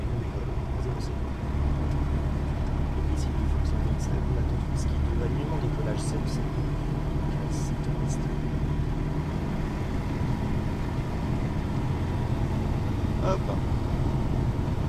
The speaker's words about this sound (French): On va s'aligner sur la piste et on va tout de suite mettre plein gaz.